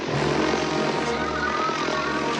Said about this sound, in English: As the plane speeds across a field, Herbie follows.